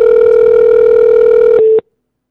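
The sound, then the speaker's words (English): A telephone beep sounds as a call goes to voicemail: a loud, steady, mid-pitched tone holds for nearly two seconds, then cuts off abruptly. “That's totally going to voicemail. That's what that beep means. Beep means that he's on the other line.”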